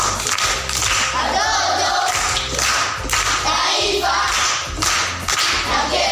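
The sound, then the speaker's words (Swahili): Applause from an audience at a primary-school proverb quiz: dense, sustained clapping that fills the whole stretch, with a low, repeating thump running beneath it. “Makofi kwa shangazi.”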